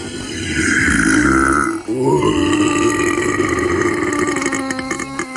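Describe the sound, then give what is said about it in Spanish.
A record-setting burp measured at 112.4 decibels: one loud, rumbling belch lasting over five seconds with a brief catch partway through, then a long raspy tail with shifting pitch. “El eructo más ruidoso de la historia, 112,4 decibelios. Y lo tenemos grabado.”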